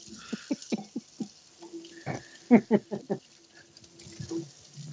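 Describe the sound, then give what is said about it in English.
Water from a newly installed faucet splashes and gurgles into a sink in many short, irregular bursts of varying loudness, with quieter gaps between them. “Are you ready to hear my new faucet?”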